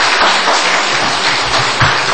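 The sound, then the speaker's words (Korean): A church audience applauds after a sermon, a dense, steady wash of many hands clapping at an even, loud level throughout. “박수 좀 해주십시오.”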